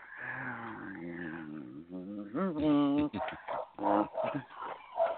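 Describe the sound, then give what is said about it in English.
A dog barks in the background, with a burst of loud harmonic barks and yelps around the middle, mixed into a steady murmur of other vocal sound. “Sorry about the dog barking in the background. Well, apparently even the puppy understands the idea and has something to add to it.”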